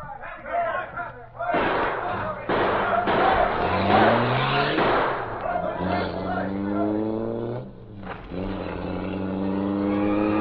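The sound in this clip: A car accelerates away at speed during an escape, its engine climbing through several rising sweeps as it gathers pace, loud and continuous over other noise.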